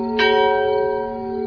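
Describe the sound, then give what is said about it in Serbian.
Monastery church bell at Gračanica in Kosovo tolling for the death of the Serbian patriarch: one clear strike followed by a rich, sustained ringing hum of layered tones that slowly fades. “Zvona manastira Gračanica na Kosovu neprestano se oglašavaju povodom smrti njegove svetosti patrijarha srpskog gospodina Pavla”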